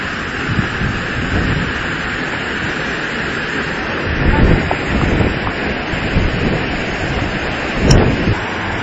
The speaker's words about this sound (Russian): Центральная часть гор Бали, далеко от города Мундук, шум водопада.